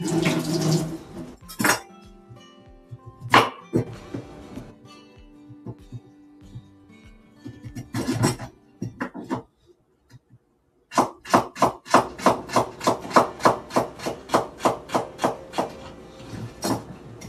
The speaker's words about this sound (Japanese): ちょっと料理しながら今お味噌汁を作ろうと思って